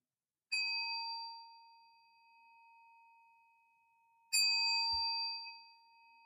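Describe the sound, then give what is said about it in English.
Meditation bell rung twice during a Zen guided sitting, each strike giving a bright, pure ringing tone that fades slowly over several seconds. A soft low thud follows the second strike. “I'm going to ring the bell and move on.”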